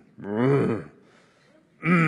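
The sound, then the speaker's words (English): A person groaning: a drawn-out voiced moan with a falling pitch, followed by a quiet pause and then the onset of another voiced sound. “finally, in our current body, we groan. Groan is an onomatopoeia.”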